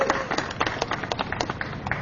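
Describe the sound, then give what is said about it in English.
Audience members clap at a political rally. Many quick, uneven hand claps form a light patter of applause that stays fairly steady through the brief moment. “Yes, right. We can clap for that.”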